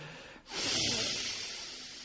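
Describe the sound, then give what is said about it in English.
A deep exhale during a seated breathing exercise, heard as a breathy rush of air that lasts about two seconds. It dips briefly near the start, then swells and slowly tapers off. “The way to make a deep breath, this sounds paradoxical, is to exhale deeply.”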